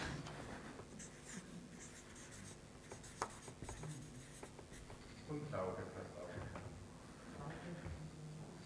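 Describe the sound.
A pen scratches across paper while notes are written down, a soft, continuous rustle with a few light taps, under quiet, muffled voices.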